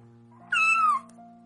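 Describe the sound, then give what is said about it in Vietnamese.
A house cat, waiting at an entryway, gives a single clear meow that slides gently downward in pitch, heard alone over a faint steady hum. “Nó đang ngoan ngoãn mà ngồi chờ ở huyền quang, ngửa đầu kêu meo meo, với đôi mắt như đá quý màu lam, xinh đẹp cực kỳ.”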